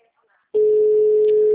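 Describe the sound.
Telephone line tone while calling a number: a single steady, mid-pitched electronic tone lasting about a second. It is loud and plays alone after near silence, then cuts off cleanly.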